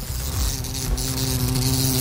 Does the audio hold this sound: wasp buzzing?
yes